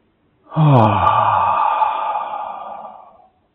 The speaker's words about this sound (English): Just letting it all go. Let's do one more breath.